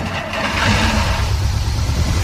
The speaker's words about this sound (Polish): po całej rekonstrukcji, po odbudowie ten silnik rusza.